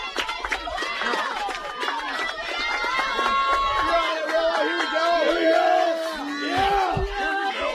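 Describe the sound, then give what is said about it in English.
A softball game crowd cheers and shouts in a continuous, swelling roar. Many voices yell over one another throughout. “Crowd amping up the noise.”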